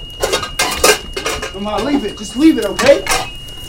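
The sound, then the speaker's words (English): Metal pots, pans and lids clattering as someone rummages frantically in a kitchen for a lid, with a frying pan on fire: a rapid, uneven run of sharp clanks and scrapes, with ringing metallic tones in between. “He rummages around frantically, searching for a lid.”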